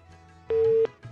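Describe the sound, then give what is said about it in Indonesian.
A telephone busy tone sounds after a dropped phone call: one steady, even-pitched beep, brief and clear over a faint low hum, with no talk. “Nah, ini kenapa terputus nih, mungkin bisa dicoba kembali Mas JA yang tadi sempat terputus.”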